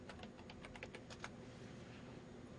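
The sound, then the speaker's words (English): A Google search is typed on a computer keyboard: a quick run of many faint keystrokes, then the clicking stops and only a quiet steady hum remains. “And now let's type in, okay. Here's what the Google algorithms calculate for me.”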